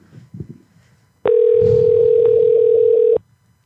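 A telephone dial tone plays before a call is placed: one steady, unbroken tone at a single pitch lasting about two seconds. A few faint, brief sounds come before it.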